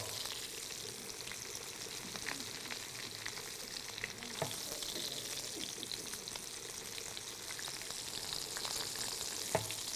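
Paprika-seasoned meat sizzles in a pan right after being flipped. A steady frying hiss carries scattered crackles and a few sharper pops, with no talk.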